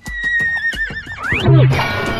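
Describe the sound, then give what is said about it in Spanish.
A horse whinnies as a rider arrives on it, giving a loud, high neigh that wavers and falls in pitch before breaking into lower snorting sounds. “¿Qué es eso en lo que viene sentado? Es un caballo, abuela.”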